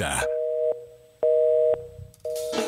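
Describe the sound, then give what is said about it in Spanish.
Telephone line tones before a call to a radio call-in line goes to voicemail: a few short, steady mid-pitched tones in a regular on-off pattern, with brief bursts of other sound at the very start and end. “Su llamada será transferida al buzón”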